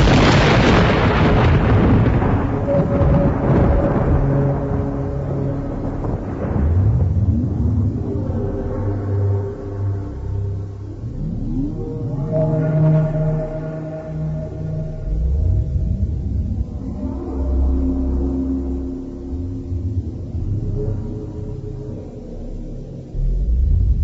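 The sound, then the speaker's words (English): A thunder crash sound effect of deep, rolling rumbles that swell in a few heavy surges and decay between them, loud and low throughout, with no voices. “her bitter scream of pain was drowned in the thunder crash.”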